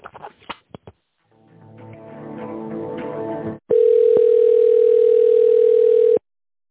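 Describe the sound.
A telephone line tone plays while a call is being transferred: a loud, steady, single-pitched tone lasting about two and a half seconds, preceded by a few faint clicks and a brief muffled stretch of sound.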